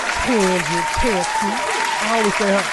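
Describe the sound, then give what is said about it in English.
An audience claps steadily while a person keeps talking over it. “And this week's person, I got to clap it up for my homie,”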